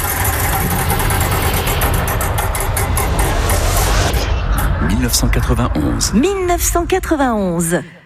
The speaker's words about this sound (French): j'envoie la roue du temps, vous l'arrêtez quand vous voulez.